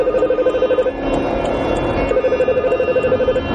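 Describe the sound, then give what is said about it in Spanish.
A mobile phone rings with an incoming call while its owner drives, a repeating electronic ringtone pulsing steadily over continuous low road and engine rumble. “Al momento recibe una llamada de Bethan.”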